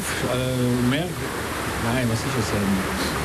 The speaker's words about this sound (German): Dann kommt noch mal ein schöner Wirbel, der schönste Wirbel vom Wildbach, weil der ist wirklich wild.